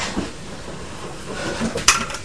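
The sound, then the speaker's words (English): Toy block buildings topple over on their own, giving a brief clatter of knocking pieces that peaks in one sharp crash near the end, set against low background noise. “Oh, it's not knocked down. Oh! Yeah! They fell over on their own, didn't they?”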